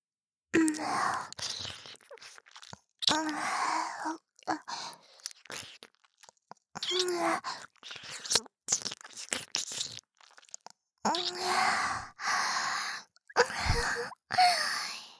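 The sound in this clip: Wet ear-sucking and kissing sounds in a Japanese ASMR roleplay come as many short, close bursts in an irregular rhythm, mixed with soft breathy vocal murmurs and quiet gaps between them.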